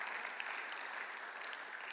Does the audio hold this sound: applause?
yes